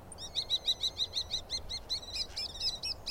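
A small bird perched on a branch calls in a quick, steady series of many short, high chirps, clear above a faint background hiss.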